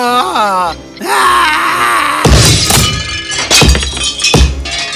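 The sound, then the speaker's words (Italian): A clock is smashed to pieces: a groaning, wailing voice gives way to heavy crashing impacts mixed with breaking and shattering debris. “Oh, l'orologio era così bello anche mentre veniva distrutto. Fu stupefacente da guardare.”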